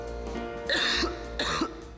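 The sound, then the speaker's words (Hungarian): Two sharp coughs burst out one after another over a steady low hum, each a short, harsh rasp with a brief pause between them. “A köhögés sosem jön jókor, de legyen szó száraz, irritáló vagy makacs, hurutos köhögésről, a Robitussin köhögés csillapító és köptető termékei hatékonyan segítenek leküzdeni.”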